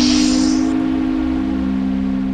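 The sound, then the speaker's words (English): Voice imitating hissing steam: a breathy hiss lasting under a second, laid over a steady low whistling hum that carries on alone after the hiss stops. “He hisses back at you. And I blow steam back at him, like...”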